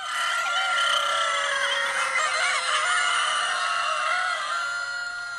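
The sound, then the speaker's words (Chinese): Dense, continuous clucking and squawking fills a henhouse of 360 chickens kept in four-tier stacked cages at a poultry inspection robot competition. The racket stays loud and steady throughout, with no talk. “听到这个声音，您就知道我们来到了一间鸡舍，这里是全场最热闹最有味道的一个赛道。360只鸡，四层叠层笼养”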